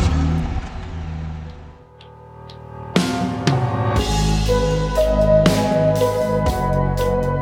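A car engine revs as the car drives off. Quieter rumbling comes first, then several loud bursts of revving that build to a sustained, strong roar.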